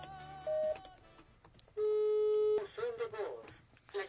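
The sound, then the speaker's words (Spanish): An unanswered phone call ringing: a short steady electronic ring tone, then a longer one, followed by a voice talking. “Le estamos marque y marque también fuera del aire, pero no nos contesta.”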